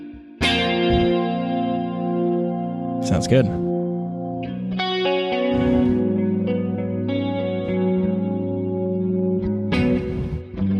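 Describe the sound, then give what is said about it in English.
Electric guitar tone run through a chorus effect on a Quad Cortex modeler, with sustained shimmering chords and a few sharper strummed accents ringing loudly, and a brief spoken remark near the start. “And I have no idea what effects were used. Obviously, chorus was used on it.”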